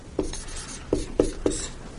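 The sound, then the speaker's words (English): Writing on a board makes four distinct scratchy strokes at an uneven pace, separated by quieter rubbing. “So when we started this journey, I am going to write on the board. I do like writing on the board.”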